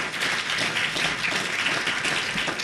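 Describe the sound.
Applause from a live audience in Dublin after a band's performance: dense, steady clapping, a continuous hissing patter of many hands at an even level throughout.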